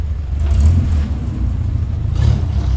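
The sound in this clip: Car driving on a trip to a neighbouring village, a steady low engine rumble and road noise with slight swells in loudness and no talk.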